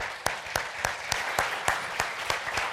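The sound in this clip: Audience applause welcomes a speaker: about nine loud claps ring out in an even, steady rhythm over a softer wash of clapping.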